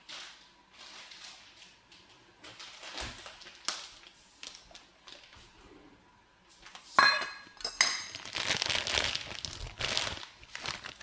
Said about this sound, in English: Just gonna pass it through a sieve so it doesn't become lumpy. Yeah, just adding in a bit, about 10 grams really.